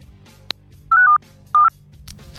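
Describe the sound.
A telephone call being dialed and connected: a sharp click followed by two short electronic tone bursts over a quiet background hum.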